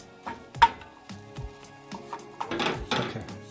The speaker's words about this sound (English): And you want to just continue stirring it. It's going to create this thick paste, which is what we want.